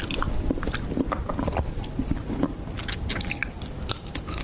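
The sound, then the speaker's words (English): Close, crisp chewing of honeycomb in an ASMR recording: many wet crackling bites and sticky squishes in a dense, irregular stream, with no talking. “It's somebody eating a honeycomb.”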